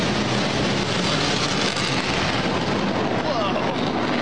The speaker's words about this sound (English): That's crazy, the sound that big. Feel that in your chest. Well, that guy kind of gave it away. It was the B-1. Oh, but, and I would recognize that anywhere. In the Air Force, we call that the bone, B-1.